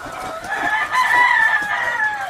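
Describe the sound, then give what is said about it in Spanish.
Young chickens cluck and crow without a break, a loud mid-pitched crowing call running over busy clucking for the whole clip. “Son pollos, ¿eh?”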